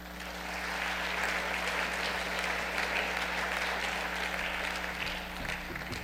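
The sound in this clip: Warm, steady applause from a church audience welcoming a visiting reverend as guest speaker, a dense wash of clapping that holds evenly over a low hum.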